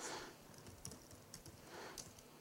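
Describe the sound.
Typing on a computer keyboard: many faint, quick keystrokes patter in an uneven rhythm, with no voices.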